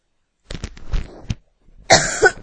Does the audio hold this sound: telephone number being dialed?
no